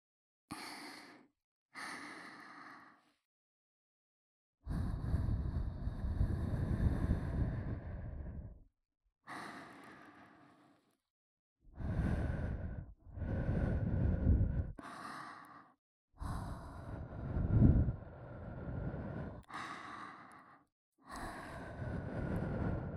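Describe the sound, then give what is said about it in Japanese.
Soft, breathy blowing into the listener's ears, delivered as many separate puffs of uneven length. Some are brief and others last several seconds, with quiet gaps between them. No talking. “じゃあまずは僕ちゃんのお耳ふうふうしていきますね。”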